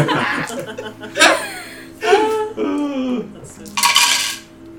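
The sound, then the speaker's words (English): Dice clattering as they are rolled for an attack in a tabletop game, a brief rattling burst near the end, preceded by chuckling and laughter. “Oh, that's very satisfying. It's just rolling the dice.”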